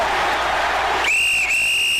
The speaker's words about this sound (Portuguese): E todas as vezes que você ouve o apito, é porque chegou a hora dele.